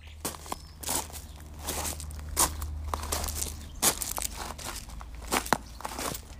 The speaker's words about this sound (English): I'm just going to set off on a little walk here.